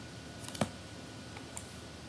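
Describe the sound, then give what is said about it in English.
Someone types and clicks on a computer keyboard, giving a few faint, separate key taps with one sharper click standing out, against a quiet, steady hiss. “Oh, I heard somebody Googling. Stop it. I heard a click.”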